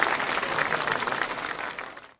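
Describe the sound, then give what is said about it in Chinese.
Applause from an audience in a classroom, a dense, steady patter of many hands clapping that holds for about two seconds and then cuts off. “今天我们课的最后，请杨老师来为大家示范诵读一次，我们掌声有请。”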